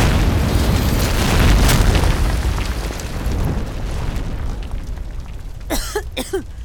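A gas explosion from Bunsen burner jets in a laboratory makes a loud, sustained roaring blast that rumbles on and slowly eases, with two short vocal cries near the end.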